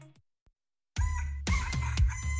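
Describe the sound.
A rooster crowing: after a short faint sound and near silence, a loud, harsh, harmonic crow bursts in and carries on for about a second and a half, broken by a few brief gaps.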